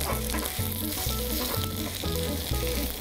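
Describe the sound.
Food sizzles hard in an oiled pan as it is flipped and pressed down, a continuous crackling hiss running beneath background music with low, repeating tones.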